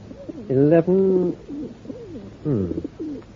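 Pigeons being offered as plump birds for a pie coo in low, soft bursts: a few mellow, wavering calls, the strongest two early and one later, with quieter cooing between them.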